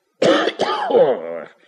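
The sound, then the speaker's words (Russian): A man turned toward a window coughs and clears his throat in a rough, voiced fit of two or three bursts. Loud and alone, it runs continuously for about a second and a half. “Аристарх Иванович запутался, встал и, отвернувшись к окну, начал кашлять. Кашель у меня, братец.”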